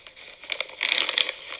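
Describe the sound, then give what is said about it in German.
Small packet bag being torn open, giving a run of crinkly, crackling rustles that grow busier and louder in the second half. “Ich reiße die Tüte auf. Da ist ein Mittel drin, damit das trocken bleibt.”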